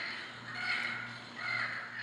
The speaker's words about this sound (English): And here's the button for the Yucatan parrot.